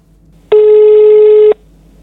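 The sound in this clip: A telephone ringback tone sounds on an outgoing call: a single loud, steady buzzing tone lasting about one second, with quiet line hiss before and after.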